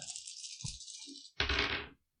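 Dice for a tabletop game are shaken in a quiet, hissing rattle for about a second, then tossed in a short, louder clatter that stops abruptly.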